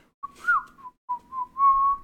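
A person whistles a short tune alone, with clear, pure notes in a few phrases, including a wavering note and a long held tone near the end.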